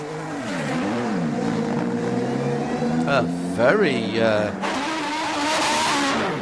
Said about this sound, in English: Oh, that's because that's a GT300 Nissan. Right. That's a GT3 spec Nissan. So that's what your road car would sound like.